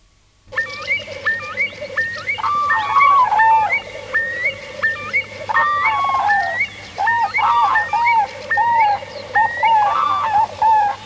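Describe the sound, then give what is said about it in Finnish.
Eurasian curlew calling, with repeated bubbling, warbling calls that come in steady bursts for about ten seconds over a constant low hum. “Iso kuovi.”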